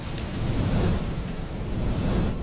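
Thunder rumbles low and heavy through a downpour during a thunderstorm, the steady hiss of rain running continuously beneath the deep roll.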